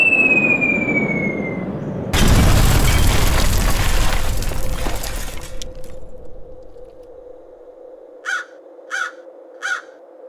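A bomb explodes on a target bunker: a falling whistle, then a loud broad blast whose rumble fades over a few seconds, and a low hum is left. Three harsh crow caws follow near the end.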